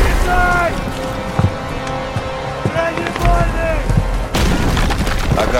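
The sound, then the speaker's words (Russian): Armor-piercing cannon round fired by a gun crew, a heavy boom bursting out near the end after loud shouted voices over a rumbling background. “Есть бронебойный! Бей! Есть! Выстрел!”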